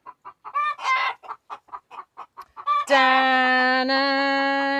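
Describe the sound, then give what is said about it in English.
Chickens in a homestead barnyard cluck in a quick run of many short, sharp calls, then a long, steady, buzzy tone takes over and holds to the end. “this is an ASMR of chicken noises. Barnyards.”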